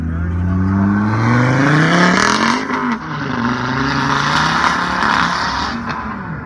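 Engine of a late-model Volvo V60 small wagon, a steady loud drone with rough harmonics that shift in pitch as it revs, dipping briefly midway before building again.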